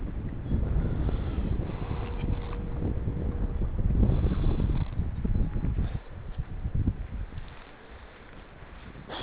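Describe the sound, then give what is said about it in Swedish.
Wind blows by a lake, a low, rumbling buffeting against the microphone that roars steadily and then eases somewhat partway through, with no voices. “Det blåser lite extra mycket vid sjön också här.”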